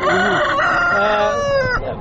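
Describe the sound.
Chickens at a poultry market: a rooster lets out a loud, drawn-out crow while other fowl cluck underneath, the sound filling the whole clip.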